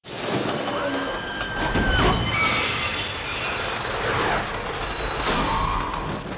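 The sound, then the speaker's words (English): Mine cart rattling along rails in a film chase scene, a loud continuous metallic rumble with shrill wheel squeal and clattering over the track. “How about that minecart chase?”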